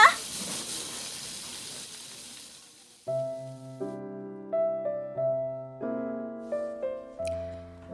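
Beef ribs sizzle on a grill at a Korean barbecue restaurant, a bright hiss that starts loud and fades over a few seconds before soft melodic tones take over.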